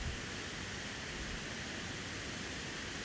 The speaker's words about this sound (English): You may be able to hear the water falling over the rocks in the background.